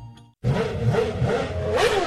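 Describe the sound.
A scooter engine revving as the throttle is opened: a steady, buzzing mid-pitched engine note starts abruptly after a brief gap and keeps going, growing slightly louder toward the end, with no voices.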